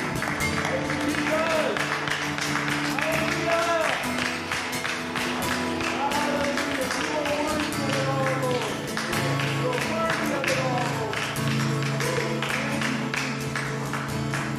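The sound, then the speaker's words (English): An audience claps as a praise offering during a church service, producing a steady run of rhythmic hand claps that continues throughout while voices and music carry on beneath it. “let's just give the Lord a clap offering. Yeah. Just clapping our hands, thanking him for what he's done in our hearts.”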